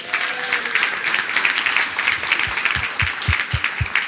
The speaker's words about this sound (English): Give it up for Shayna.